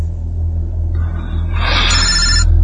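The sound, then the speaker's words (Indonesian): A phone rings with an incoming call, a bright ringing tone that swells in partway through over a steady, loud low rumble. “Ketika kulihat, itu adalah panggilan dari saudaraku, Adrian.”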